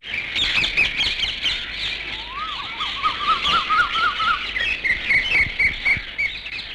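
Many birds calling: a dense, continuous chorus of high chirps and quick twittering notes, with a lower warbling trill running through the middle, steady and fairly loud with no talk.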